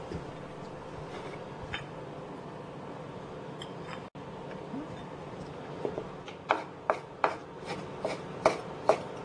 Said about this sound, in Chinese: 更讲究的话，我们待会再把它像剁碎肉一样，再把它剁一剁。